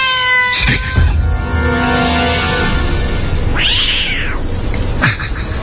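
A kitten meows a few times, high, harmonic cries rising and falling over steady background noise, with one long arching meow standing out near the end.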